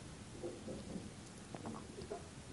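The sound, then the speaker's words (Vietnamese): Cold autumn morning rain with thunder in Beijing: a faint, steady hiss of rainfall with scattered soft patters and a low rumble underneath, with no voices. “Sáng nay thời tiết thay đổi, một trận mưa thu lạnh lẽo.”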